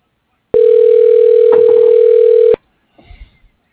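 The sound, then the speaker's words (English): A loud, steady telephone tone holds unbroken for about two seconds while a call to a vascular clinic is dialed, then cuts off sharply. “Dialing.”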